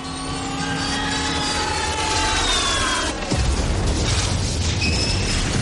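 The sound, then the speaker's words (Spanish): An armoured tank plunging off a cliff in the film Indiana Jones and the Last Crusade (1989): a loud, roaring engine-like drone with falling whines, then a heavy, noisy crash and rumble about halfway through. “Se tira hacia la parte trasera del tanque. El blindado cae al vacío con Fogel en la torreta.”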